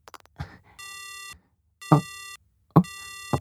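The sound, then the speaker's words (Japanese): Three evenly spaced, buzzy electronic beeps of a phone line's disconnection tone follow a cut-off call, with small clicks before each beep and silence between them. “もしもし？もしもし？あれ？また切れちゃった。”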